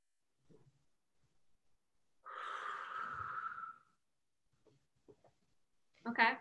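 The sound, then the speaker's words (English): A single deep breath, long and steady, lasts nearly two seconds amid near silence. Faint small sounds follow it, and a brief voice sound comes at the end. “So now take 3 deep breaths into that area again, into your finger.”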